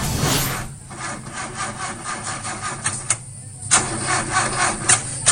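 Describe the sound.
An old car engine struggling to start, a starter cranking in fast rhythmic whirring pulses that stop briefly partway through and then resume, loud and steady with no talk.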